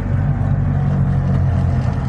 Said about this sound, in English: It's a very, very unique thing with the Trabants. You think they'd be similar, but no. Yeah. Right, we're off. We're moving now.